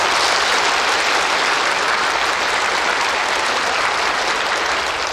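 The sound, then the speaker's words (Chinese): Dense, continuous applause from an audience at a medical event welcoming a hospital cardiology department head, loud and even throughout with no talk over it. “掌声有请燕都大学第三医院心内科主任齐帅国教授。”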